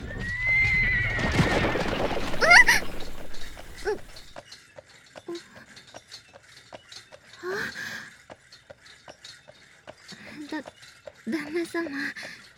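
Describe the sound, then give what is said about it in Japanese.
A horse-drawn tram: a horse neighs loudly at the start, then hooves clip-clop in a steady rhythm, with a few louder snorting bursts later on. “馬車鉄道の旅、あっという間でございましたね。もうすぐ終点とのことです。”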